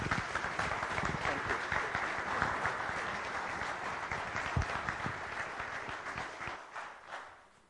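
A Free Methodist audience applauds to welcome a visiting bishop from Kenya. Thick, even clapping sustains for several seconds before tapering off and fading at the end.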